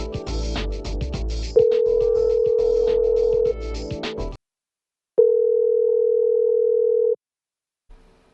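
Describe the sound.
A telephone tone sounds while calling back, two long steady beeps of about two seconds each separated by silence, the first heard over rustling handling noise.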